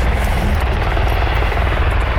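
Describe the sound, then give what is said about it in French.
A large helicopter flies overhead, its rotor and engine producing a loud, continuous, throbbing drone that stays steady throughout. “Hélicoptère, cher ami. Un gros hélicoptère qui n'est pas le SAMU.”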